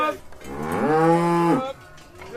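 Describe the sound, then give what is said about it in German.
Harzer Rotes Höhenvieh cattle mooing: one long, loud, resonant moo lasting over a second that holds a steady tone and then breaks off, with faint background noise around it. “Kenner haben es vielleicht schon am ersten Moon gehört. Das ist der Sound vom Harzer Rotes Höhenvieh.”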